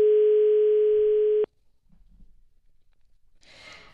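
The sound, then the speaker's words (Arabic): A telephone dial tone on a call to a regional government office in Casablanca: a loud, steady single tone that cuts off abruptly after about a second and a half, followed by faint low rumbling and a brief hiss. “شوف لنا التليفون عبد الرحيم ديال الولاية.”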